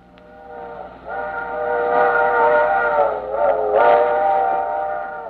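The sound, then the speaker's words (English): A steam train whistle sounds a warning signal before a crossing: a loud, sustained, rich harmonic blast that swells in and holds with a slight waver midway, over a low rumble. “Hear that? If you're a driver, that's a signal you should know. The trainman's warning signal that engineers start to blow a quarter mile before a crossing.”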